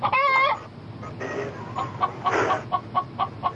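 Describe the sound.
A chicken gives one loud squawk, then a run of short, evenly spaced clucks that fall into a steady rhythm, with a couple of brief, harsher calls mixed in.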